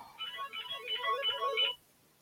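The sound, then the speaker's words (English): A mobile phone ringtone goes off during a football debate show, a short electronic melody of quick repeating notes that plays for about a second and a half, then cuts off abruptly. “Oops. And that's my phone.”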